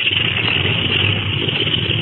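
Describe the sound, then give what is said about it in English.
An aircraft motor warming up before a flight: a loud, steady droning rumble that holds an even level throughout, with no voices. “Well, they're warming up the motor.”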